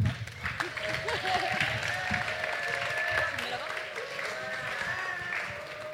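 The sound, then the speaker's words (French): Audience applause at a startup pitch competition, a dense, even patter of many hands that continues throughout at moderate level, with voices heard over it. “On va donc accueillir le projet Naître. On peut les applaudir aussi, hein, s'il vous plaît.”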